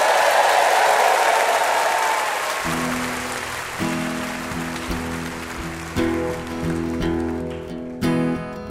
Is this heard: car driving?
no